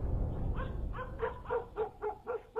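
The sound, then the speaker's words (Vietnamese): A pack of dogs barks while chasing someone along a road. The sharp, mid-pitched barks come in a quick, regular run that grows more insistent toward the end, and no talk is heard. “Bầy chó cái giống nó cứ thấy người chạy là nó đuổi. Những con chó khác ở dọc đường cũng hùa vào theo.”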